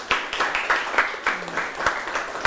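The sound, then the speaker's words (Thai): A school class clapping for a classmate, with many claps falling in a steady, even rhythm at moderate loudness. “เรียบร้อยเอาปรบมือกับเพื่อนค่ะ”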